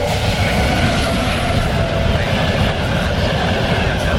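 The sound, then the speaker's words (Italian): A train passes through a station at platform 3: a loud, steady rumble and rush of wheels on rail that holds unbroken through the whole stretch. “Treno in transito al binario 3, allontanarsi dalla linea gialla.”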